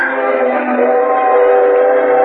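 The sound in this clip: A train gives a loud, sustained, chord-like tone that holds steady and unbroken from start to finish, with no voices.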